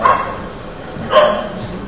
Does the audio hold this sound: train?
no